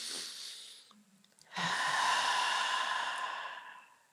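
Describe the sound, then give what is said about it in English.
A group of people take a deep breath together. A shorter airy breath comes first, then a pause, then one long, smooth rushing breath that swells and fades slowly. “just feel free to take a deep breath.”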